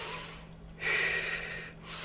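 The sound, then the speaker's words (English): A deep breath drawn from the diaphragm, heard as soft, airy rushes of breathing with a long, steady breath in the middle, quiet and alone without any talk. “Well, one way is to take a nice deep breath from the diaphragm.”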